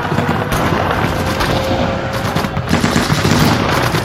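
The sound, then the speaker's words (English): Gunfire from enemy guards in buildings during a night raid in Normandy: a loud, dense, continuous rattle of overlapping shots and bursts that holds steady throughout without pause. “as predicted, the enemy guards based in the north buildings opened fire.”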